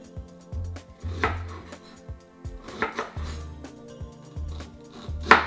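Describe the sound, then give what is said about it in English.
A knife slices fresh ginger into fairly large pieces, giving many dull, evenly spaced chopping knocks on a board, with faint brighter clicks now and then and no talking. “I'm gonna slice the ginger into fairly large pieces so that I could remove them after I cook the ginger.”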